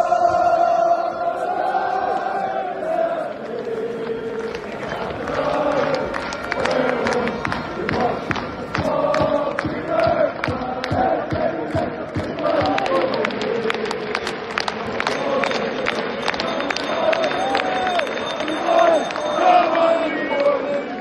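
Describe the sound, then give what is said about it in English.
Travelling Irish football supporters cheer their players in the Fortuna Arena: a sustained crowd roar with bursts of rhythmic clapping and massed voices, holding for about twenty seconds. “In the Fortuna Arena, the Irish players are cheered on by the travelling support, thanking them for even getting to this chance and giving a nation hope.”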